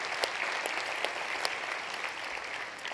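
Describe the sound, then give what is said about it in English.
A church audience claps to welcome guests at a morning service, producing a steady, even patter of many hands that stays fairly faint and unbroken throughout. “Can we just put our hands together this morning and welcome all of our guests to church today?”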